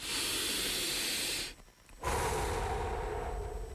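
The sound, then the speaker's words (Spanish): A deep breath in a radio advert, heard as two long, loud, airy hisses of breath split by a brief quiet gap, with no voices. “Detenete. Respira profundo.”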